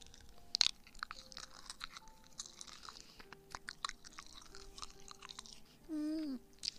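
Chewing on soft gummy candy: faint, moist smacking and squishing with a scatter of small clicks and crunches spread unevenly over several seconds, followed near the end by a brief hummed vocal sound.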